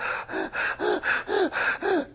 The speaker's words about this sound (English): take small breaths. Now make them bigger. Bigger, bigger,